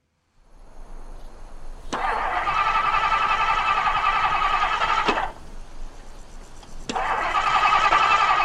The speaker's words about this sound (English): Seems to be doing everything it should do at the motor. Yeah, but uh, it isn't. It, it, it isn't starting.